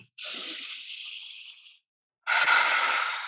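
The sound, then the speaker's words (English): A deep breath taken during a guided breathing exercise: a long, airy inhale, a short pause, then a long hissing exhale, with no talking. “okay, so everyone take a breath.”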